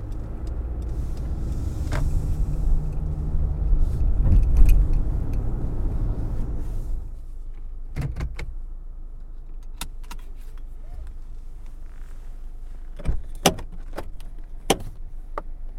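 A car being driven: a low, steady engine rumble fills the first half, then drops to a quieter hum broken by scattered sharp clicks and knocks.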